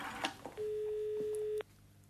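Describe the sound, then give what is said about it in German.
A telephone call is dialled: a couple of brief clicks, then a single steady electronic phone tone that holds for about a second before stopping abruptly. “Jetzt konnte sie die Nummer anrufen, die Helga ihr für den Notfall gegeben hatte.”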